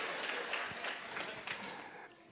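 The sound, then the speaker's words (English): Sparse, half-hearted audience applause, a faint scattering of a few claps with no steady rhythm that thins out toward the end. “That's a mercy clap. You didn't mean it.”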